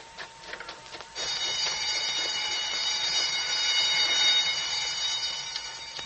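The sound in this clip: A prison escape alarm bell rings, a loud, steady metallic ringing. It starts abruptly after a brief stretch of quieter noise and holds unbroken to the end.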